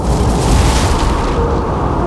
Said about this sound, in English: Or they dropped a bomb!